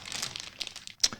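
Crinkling of the paper wrapping around a large praline: a steady dry rustle with a few sharper crackles toward the end, fairly faint and with no voices.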